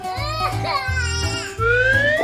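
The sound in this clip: A toddler cries and whimpers at a children's hurdle race. Three bouts of high, wavering wails have breathy gaps between them, and the last cry rises in pitch and grows louder.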